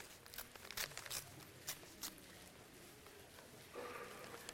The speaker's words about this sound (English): I'm going to ask you to pull out your special envelope, all right? If you did not take a bulletin this morning, you picked a wrong week to pass up on the bulletin. Now you may open this envelope carefully.